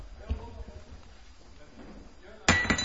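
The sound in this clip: A glass cup stuck with glue is handled: a sudden sharp clink and rattle near the end, over faint, continuous background murmur.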